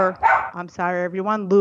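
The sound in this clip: A dog barks in a brief, loud burst: a sharp bark followed by a few drawn-out, whiny vocal sounds.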